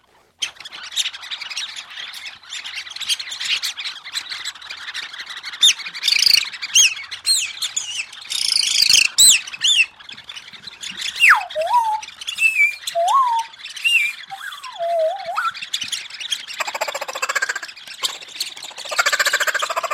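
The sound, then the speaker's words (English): Wild bird calls, part of a collection of recorded animal calls: dense overlapping squawks and chirps, then a few looping whistled calls that dip and rise, with a harsher burst of squawking near the end. No voices. “we discovered these sounds there, you know, like these bird calls, animal calls, and we start to collect them.”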